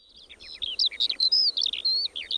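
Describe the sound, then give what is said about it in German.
A skylark singing a fast, high-pitched stream of chirps, trills and warbling notes with hardly any pauses. The song is continuous and moderately loud, and no voices are heard. “Das war der Gesang einer Feldlerche”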